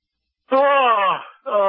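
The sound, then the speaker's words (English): A man gives a deliberate mock yawn, a drawn-out voiced groan that slides downward in pitch for under a second before speech starts. “No, I'm just kidding about the yawn there.”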